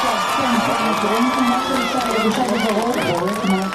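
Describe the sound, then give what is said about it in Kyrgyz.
A dense crowd of hundreds cheers in Tel Aviv while watching the live release of three hostages. Many voices shout and call out together in a loud, steady roar that continues throughout. “Барымтадагы үч жарандын бошотулушун Тель-Авивде жүздөгөн адамдар түз эфирде көрүп кубаттап турушту.”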